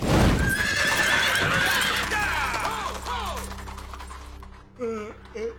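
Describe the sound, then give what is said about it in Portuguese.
Horses neighing with hooves clip-clopping: a loud whinny trills and falls in pitch over a couple of seconds above dense, noisy hoofbeats, fading toward the end. “Seus cavalos estão prontos. Avante!”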